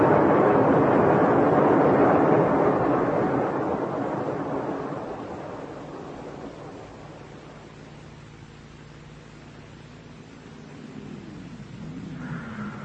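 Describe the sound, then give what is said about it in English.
A light aircraft comes in to land on a desert landing strip near the coast at the edge of the Namib Desert. Its broad, roaring engine noise starts loud, gradually fades to a low drone, then swells slightly again at the end. “The landing strip is about a mile inland from here. We'll get this thing on the ground and then walk back.”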